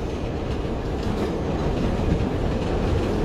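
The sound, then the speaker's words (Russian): A subway train carriage rides along with a steady, dense rumble and roar of wheels on track, loud and unbroken throughout, with no distinct clicks or voices standing out. “Наш поезд приближается к легендарной станции метро Бородинская”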